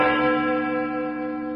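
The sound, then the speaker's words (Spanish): A large bell rings with one deep, rich toll whose layered overtones hang in the air and fade slowly, alone without voices. “cuando comenzó a sonar la gran campana no la oyó”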